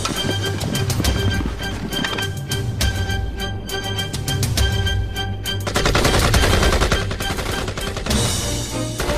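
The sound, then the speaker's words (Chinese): Gunfire in a battle: loud, continuous rapid shots and machine-gun bursts form a dense crackling barrage with no pauses, swelling slightly toward the end. “谁让他们开火的？这不是提前暴露火力吗？”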